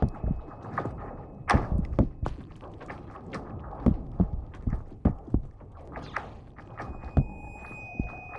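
Frozen lake ice sounding off: many sharp pings and soft thumps at irregular intervals, fairly faint, over a low continuous rumble.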